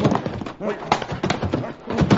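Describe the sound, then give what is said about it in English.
Horse hooves clip-clop as three horse-drawn U.S. Army wagons approach, a steady, loud, rhythmic clatter running under people talking. “here come the army wagons now. Army wagons?”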